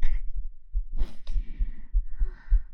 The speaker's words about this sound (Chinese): 急促的呼吸，看一下心跳会不会变化